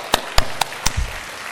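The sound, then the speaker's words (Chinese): A few sharp, separate hand claps mark applause for the competing ball teams at a fellowship event. The claps ring out one by one with gaps between them, followed by a soft low thump. “让我们再次用掌声恭喜所有的参赛球队，”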